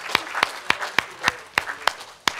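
An audience claps in a hand-clap offering at a church service. About eight sharp claps land on a steady, even beat, each crisp and distinct above a low murmur of background noise.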